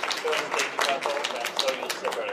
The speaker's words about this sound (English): That was greeted by applause here at Russian Mission Control.